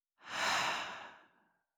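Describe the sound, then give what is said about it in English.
A single deep breath out during a guided breathing exercise, a soft, quiet, breathy sigh rising quickly and fading away over about a second and a half. “we're going to take a deep breath in, hold at the top, and then breathe out. So breathing in, pause, and out.”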